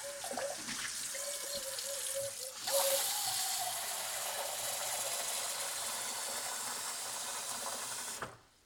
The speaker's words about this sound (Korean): 유난히 물 쓰는 일이 많아서 들으시는 분들께서 좀 고통스럽지 않으실지 걱정이 됩니다.